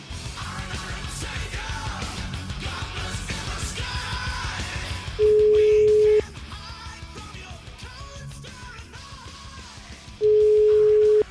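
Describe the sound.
Telephone ringback tone from an outgoing call: two steady, mid-pitched ringing tones, each about a second long and a few seconds apart, break in over a dense, busy background.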